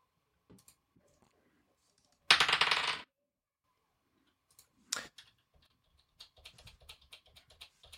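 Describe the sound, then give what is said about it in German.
Dice tumbling during a board game make a dense rattling clatter lasting under a second, then a shorter clack and a scattered run of light clicks. “Ich würfel. Ah ja, genau, jetzt mit der Würfeln.”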